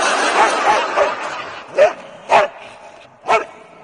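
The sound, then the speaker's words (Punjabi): A dog barks three times, sharp and loud, at uneven spacing, after a stretch of fainter, lower yips and grumbles. “Wow कितना प्यारा doggy है।”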